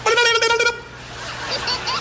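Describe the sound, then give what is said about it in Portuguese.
A car horn gives a short, loud, buzzing blast lasting under a second, then gives way to quieter sounds that resemble voices. “a buzina do meu automóvel é a buzina mais discreta que você pode já ter ouvido.”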